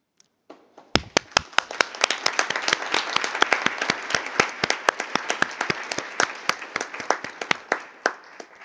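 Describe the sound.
Applause at an international meeting approving, by acclamation, Hungary's election as chair of the sixth Meeting of the Parties to the Protocol: a few scattered claps, then many hands clapping steadily in sharp, dense bursts until the end.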